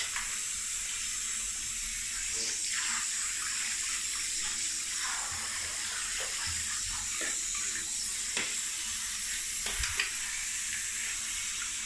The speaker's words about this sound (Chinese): 屁股抬起来，给你冲一下尾巴上面。